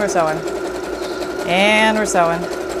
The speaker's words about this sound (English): And we're sewing. Okay. It doesn't take that long to do these. And we're sewing.